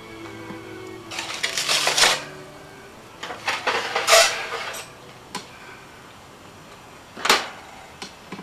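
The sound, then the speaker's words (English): A pan of liver goes into a preheated broiler, giving metallic clatters and scrapes in three separate clusters, the first two longer and rattling, the last a single sharp clank. “I've preheated my broiler, and I'm going to put the pan with the liver on and let it broil thoroughly on one side.”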